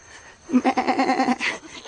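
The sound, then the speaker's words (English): A goat bleats once in a single loud, wavering call with a rapid quivering tremolo that lasts about a second. Faint background noise surrounds it. “What is that? Sounds like... It is. A goat. It's a goat.”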